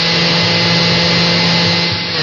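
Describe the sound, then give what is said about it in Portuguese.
A blender whirs steadily and loudly as it mixes condensed milk, milk, egg yolks and vanilla, giving one continuous motor drone with a humming tone and no pauses or talk. “Bata no liquidificador o leite condensado, o leite, as gemas e a baunilha.”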